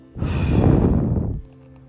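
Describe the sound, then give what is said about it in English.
A single long breath blown out hard through the mouth, a loud breathy whoosh lasting just over a second and then stopping, heard alone. “Breathe in. Hold and exhale. And blow.”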